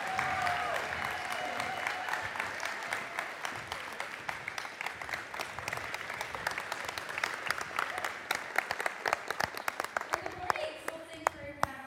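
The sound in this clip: An audience applauds to welcome a speaker at a church service. Dense, steady clapping goes on for several seconds and then thins into louder scattered claps near the end.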